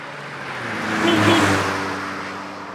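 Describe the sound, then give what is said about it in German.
A single car drives past as an edited-in sound effect. Its engine whir swells to a peak near the middle and fades away smoothly. It plays alone, with no voices. “Aber, dass ihr euch zu Hause fühlt, werden wir jetzt kurz ein Autogeräusch reinschneiden.”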